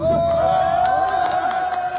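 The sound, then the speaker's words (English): Emergency workers cheering as workers trapped for over a week in a hydropower tunnel in Nepal are lifted out after a flash flood, a continuous, loud crowd roar of shouts and whoops. “Emergency workers cheered as they lifted the workers from the tunnel they had been trapped in for more than a week.”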